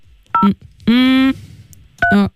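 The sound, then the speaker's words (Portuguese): Telephone dialing tones as a call is placed a second time: three short electronic beeps separated by brief gaps. The middle beep is a steady, buzzy tone, and no speech sounds over them. “Vamos tentar agora aqui uma segunda vez. Vou marcar outra vez”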